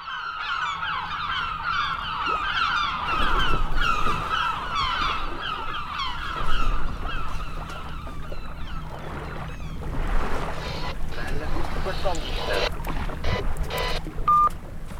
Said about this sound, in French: quoi de mieux qu'une balade en voilier Le bruit des vagues, les mouettes au loin.